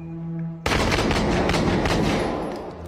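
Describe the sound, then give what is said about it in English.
Gunfire from a gun in a video: a steady hum is cut by an abrupt loud onset, then a dense, continuous run of many rapid shots that slowly fades. “Watch how he shoots the recoil of the gun. Watch this. Oh, this has got real... Look at that. Shots fired!”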